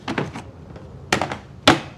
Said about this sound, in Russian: Она переставляет машинку для печати ярлыков с одного места на другое.